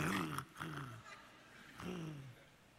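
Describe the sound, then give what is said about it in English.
A voice imitates a dog growling over its food bowl with a few low, rough, drawn-out growls, louder at first and then trailing off quieter. “you can have the friendliest dog and get around them while they're eating and they're like”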